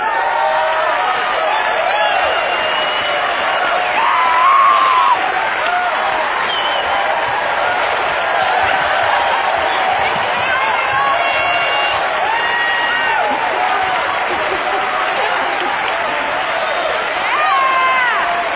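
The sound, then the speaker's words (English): Applause and cheering from an audience in New York City fill the air as a folk singing group is welcomed on stage: dense, steady clapping with scattered whoops and shouts running throughout, swelling slightly near the start and again at the end. “Well, thank you, New York City, for that very warm welcome.”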